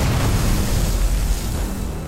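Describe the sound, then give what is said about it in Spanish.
A PIAT anti-tank weapon is fired at German troops in a Second World War battle, a heavy, deep boom that rolls on as a continuous low rumble without letting up. “Coge el arma. La amartillea. Y dispara el piato hacia los alemanes”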